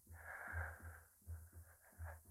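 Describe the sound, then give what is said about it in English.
Deep final breath drawn during a yogic breathing exercise, a quiet, airy, rasping rush of air with a soft low pulsing underneath, heard alone without speech. “Now, the last breath, as the yogi taught me.”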